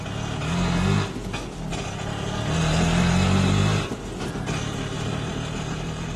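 Auto rickshaw engine with a buzzing low drone that swells in two louder surges and then settles to a steadier idle, with no talk.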